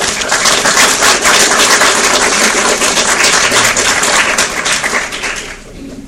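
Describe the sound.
Loud, dense applause from an audience welcoming a dean and a professor onto the stage, a continuous wash of many hands clapping that holds steady and then tails off near the end.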